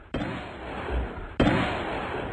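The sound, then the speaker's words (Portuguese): Two sharp gunshots ring out during a police operation in a residential area, a little over a second apart. Each is a loud, abrupt crack followed by a long, slowly fading tail. “é muito tiro aí também, hein? Misericórdia! Polícia em ação. Ó, ó o pânico dos moradores.”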